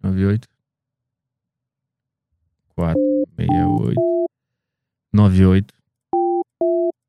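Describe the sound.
Phone error tone after dialing an invalid mobile number in Brazil: four short, steady two-note beeps that alternate with bursts of a person talking.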